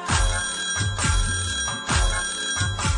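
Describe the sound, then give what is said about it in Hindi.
Telephone bell ringing in loud, bright bursts that repeat at a steady pace, each ring clearly separated by a brief gap. “ट्रिंग ट्रिंग ट्रिंग ट्रिंग घंटी बजी, मैया जी ने एक दिन phone किया”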